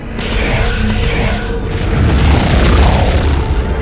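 Enemy ship weapon fire strikes a spaceship's starboard shield in a loud, deep boom that rolls on as a sustained low rumble, swelling again partway through.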